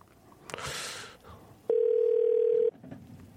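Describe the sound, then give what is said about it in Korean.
A single steady telephone ringback tone plays while a call is placed to a listener. It is one mid-pitched, unbroken beep lasting about a second. “공하나이6님한테 한번 걸어볼까요?”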